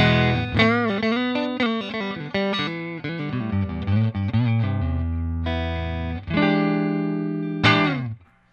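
An electric guitar played through the neck pickup: a quick run of picked notes leads into longer ringing chords, ending with a final strum that fades out.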